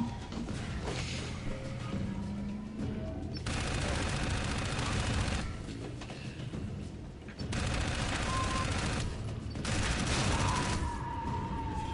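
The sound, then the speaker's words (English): Video game gunfire as someone shoots people: loud, rapid volleys of shots rolling on in long bursts, with a few short lulls between them. “No, he's shooting people.”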